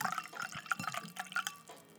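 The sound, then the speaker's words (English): Wine poured into a glass, a soft, quiet liquid trickle with small drips and splashes running for about two seconds. “That's the sound of some wine being poured.”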